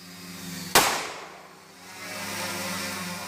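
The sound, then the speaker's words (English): A single sharp crack from a semi-automatic handgun strapped to a hovering four-propeller drone, fired into a wooded area, with a steady buzzing hum before and after. “As it hovers, it fires four shots into a wooded area before the video cuts out.”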